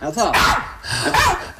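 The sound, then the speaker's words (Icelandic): An excited pet dog barks and whines in two loud, high-pitched bursts, its yelps and whimpers rising sharply and then dropping away briefly before the second outburst. “Og þarna tapar hundurinn minn sér algjörlega, hún Mía.”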